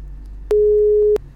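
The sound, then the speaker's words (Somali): Busy tone on a telephone line after a caller is cut off: a single steady, low-pitched beep about two-thirds of a second long over a faint hum, with quiet on either side. “dhageystaha kale qadka telefoonka ayaa ka gooyay”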